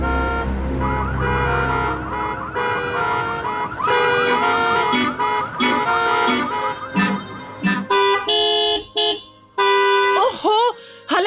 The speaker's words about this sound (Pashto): بیبیپ بیبیپ هارنونه وایي